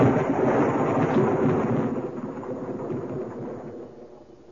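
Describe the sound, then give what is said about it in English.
Thunder from a thunderstorm rolls in one deep, continuous rumble, loud at the start and slowly fading over several seconds. “There is one who brings this storm at his will, summons and directs it.”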